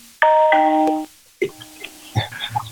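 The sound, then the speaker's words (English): A doorbell rings with two bright chiming notes in quick succession, a ding-dong that holds for under a second and then cuts off, followed by a few scattered quieter sounds. “Right, sounds like a doorbell. Sounds like the doorbell.”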